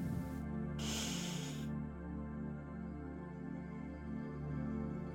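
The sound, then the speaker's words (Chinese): A deep breath is drawn in during a guided hypnosis exercise on grief. It is a single soft, airy inhale of about a second, heard over steady, sustained ambient music tones. “如果这些话很难说出口，那就深深的吸一口气，让腹部鼓起来。来，吸气。”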